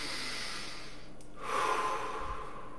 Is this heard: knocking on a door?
no